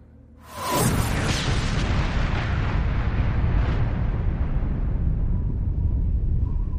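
A massive explosion in a superhero battle bursts in suddenly after a quiet start. It becomes a dense, roaring rumble that holds for several seconds and slowly thins out.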